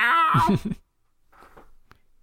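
A cat meows once, high and drawn out with a bending pitch, then quieter rustling and a brief tick follow.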